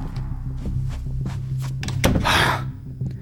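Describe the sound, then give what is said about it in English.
A bedroom door being shut and locked: a few faint taps, then a sharp thunk followed by a brief rattling scrape, all over a steady, low hum. “Okay. I'll lock myself in the bedroom. Please, hurry.”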